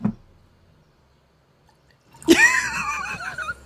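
Wine poured into a glass breaks a long near-silence with a sudden splash, followed by a gurgling, bubbling stream of liquid that fades slightly as it continues.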